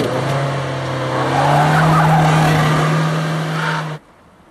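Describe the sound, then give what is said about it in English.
A car drives past traffic lights, its engine giving a steady low drone that swells slightly midway, holds, and then cuts off abruptly near the end. “A set of traffic lights change and Marion drives past them.”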